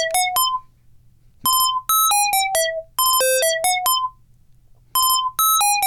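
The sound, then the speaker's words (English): Synthesizer sequencer playing a programmed sequence of bright, electronic beeping notes that jump between pitches, arriving in quick bursts separated by short pauses, over a faint low hum. “what the sequencer does, because we've got a sequence programmed in here. This was one from yesterday. Let's see what it sounds like in 3, 2, 1.”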